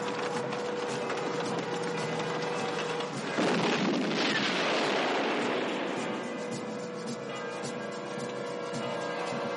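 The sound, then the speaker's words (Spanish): A German Tiger tank in the film Kelly's Heroes moves with continuous clanking, ratcheting track and gear noise, swelling into a louder, rougher stretch midway before settling back to a steady mechanical rattle. “Uno de los tigres alemanes también trata de atravesar el edificio para alcanzar el Sherman de Oswald y Kelly. Al no conseguirlo, avanza en otra dirección”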